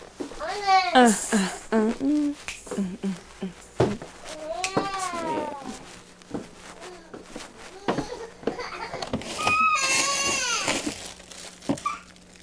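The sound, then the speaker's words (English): A child whines in several drawn-out bursts of wavering, rising and falling pitch, separated by short pauses and interspersed with quieter vocal sounds. “Good grief. He wants to get it now. All he's doing is whining.”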